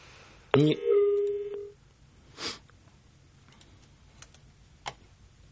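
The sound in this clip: A telephone tone on a line during a call to an office reception: a single tone of about one second, wavering briefly before settling to a steady mid pitch, followed by a few faint clicks.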